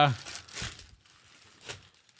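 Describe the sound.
Crinkling and tearing as a package sealed with masking tape and shipping tape is opened: a few short, rough bursts of crackly noise with quiet gaps between.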